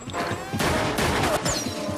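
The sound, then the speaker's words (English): Gunfire from a car: sniper rifle shots and return fire, heard as a few sharp, loud blasts over a dense, continuous rumble of noise. “Someone in a car shoots at them with a sniper's rifle, and they fire back.”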